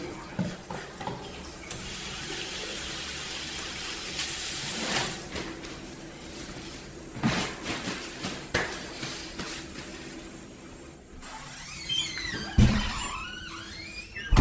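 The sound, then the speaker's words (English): Hands being washed under running tap water: a soft, faint, steady rush of flowing water that rises for a few seconds, then small clatters and splashes follow as it trails off. “And wash my hands.”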